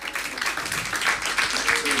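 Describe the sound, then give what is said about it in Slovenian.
Applause after a musical performance, a dense, fairly even patter of many hands clapping, with slight swells in loudness, running through the whole clip. “en aplavz”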